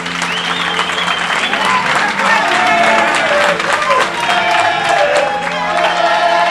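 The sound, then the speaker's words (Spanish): Crowd of shop staff and onlookers at the doors of an Apple Store cheering, clapping and chanting a name in unison. The dense, loud roar of many voices and applause runs without a break. “Como puedes escuchar, los dependientes y toda la gente que se agrupa a las puertas del Apple Store están coreando el nombre de Albert.”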